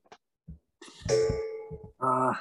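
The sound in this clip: A gong rings out in a bright, sustained tone with overtones, then sounds again briefly, while people talk around it.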